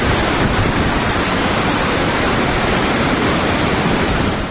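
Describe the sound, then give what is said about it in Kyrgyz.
Rushing water of the Ala-Medin mountain river at the Jyluu Bulak recreation spot: a loud, steady, unbroken roar that holds even for the whole stretch, with no voices. “Бул жайды жашыл тоолордон сырткары шаркырап аккан Ала Мүдүн дайрасы ого өтөр ажарын ачып турат.”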